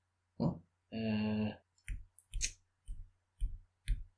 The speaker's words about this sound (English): You can click all you like, I'm not going to get it.